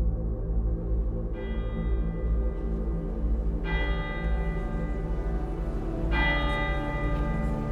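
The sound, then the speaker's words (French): Church bells ring at the Saint-Jean-Baptiste church in Wavre for a funeral: three loud, evenly spaced bell strikes, each leaving a long, shimmering ring that blends over a steady low rumble. “Ce mardi 5 octobre 1982, les cloches de l'église Saint-Jean-Baptiste résonnent.”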